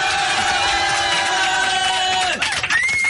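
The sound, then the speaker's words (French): A crowd giving a standing ovation: dense, loud cheering and whooping with applause runs steadily for about three seconds, then thins with a few rising shouts at the end. “Je crois qu'on peut faire une standing ovation pour les chaussettes de Michael Jackson sur Fun Radio.”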